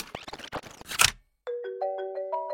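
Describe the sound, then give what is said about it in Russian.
Electronic telephone ringtone sounding as a few stepped, sustained tones at changing pitches, entering cleanly after a brief burst of other sound and a short silence. “И вот на следующий день раздался звонок.”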